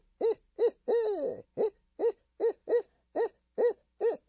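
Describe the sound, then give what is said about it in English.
A person imitates a barred owl's hoot to locate turkeys roosting in trees, producing about ten rhythmic hooting notes. One longer, wavering drawn-out call comes early in the series. “they go out and hoot for them because they respond to the hoot of a barred owl. So people go out to try to locate where they're roosting up in the trees, and they hoot and they go,”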